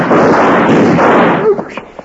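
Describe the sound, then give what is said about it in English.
Gunshot in an old-time radio western drama, a single loud, booming blast that sustains for over a second before cutting off, followed by a brief voice. “You thought you just shot him”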